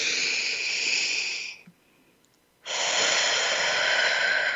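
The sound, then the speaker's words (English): A deep, slow breath during a guided pause to slow down and be still: two long, airy rushes of air, steady and fairly loud, separated by a short silent gap. “let's take a moment, take a breath, breathe in”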